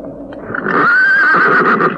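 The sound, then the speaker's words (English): A pony near a graveyard gives a single whinny, a bright, wavering, fairly high neigh that rises out of low background noise and holds for under a second before tapering off. “God, I walked straight into the pony. I didn't see it.”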